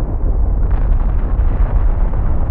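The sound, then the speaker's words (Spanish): Deep, continuous roaring rumble of a volcanic fissure eruption, loud and heavy in the low end, with a dense churning texture that never lets up and no voices. “Cada vez que los hombres creían que el fuego se había acabado, nuevas fisuras se abrían y las erupciones recobraban sus fuerzas.”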